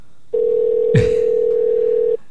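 A steady telephone tone sounds while a call is being placed. It holds one unbroken pitch for nearly two seconds, with a brief soft thump partway through, and no talk is heard.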